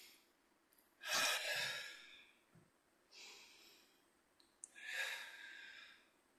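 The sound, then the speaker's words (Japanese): Deep breathing during a body-loosening stretch, heard as three slow, airy breaths separated by quiet pauses. The first and last are the longest and loudest, and there is no talk. “深呼吸。”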